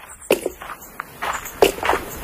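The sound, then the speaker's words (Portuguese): Footsteps of people walking outdoors on a path toward a hill, a few uneven, soft steps spaced irregularly across the short stretch. “Precisamos caminhar mais um pouco, até passar esse monte.”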